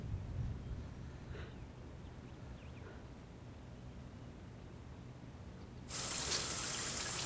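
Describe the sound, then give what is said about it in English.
Tap water runs into a basin as a flannel is washed out under it. A quiet stretch comes first, then the water starts abruptly near the end and gushes loudly and steadily to the close. “washes the flannel out under the tap and puts it on the side of the basin”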